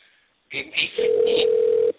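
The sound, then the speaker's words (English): One sustained telephone ring tone sounds as a call is placed during a radio show. It is a steady mid-pitched beep lasting about a second, with a voice heard just before it. “So right now we got to get Neil Goliath Grove on the phone.”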